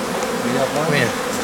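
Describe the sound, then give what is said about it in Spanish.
Bees buzzing around a beehive, a dense, continuous droning hum that stays loud and steady throughout, with no talk. “Madre mía, qué de abejas.”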